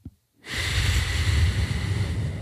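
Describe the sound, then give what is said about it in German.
A deep breath in and out: after a brief silence, a long, steady, breathy rush of air rises and continues to the end, with no talking. “Einmal ganz tief einatmen und ausatmen.”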